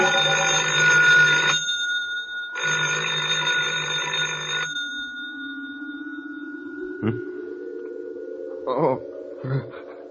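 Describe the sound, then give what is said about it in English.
Telephone ringing with two loud, buzzy bell bursts separated by a short pause, then a quieter voice-like tone continues after the rings. “I thought I heard the phone.”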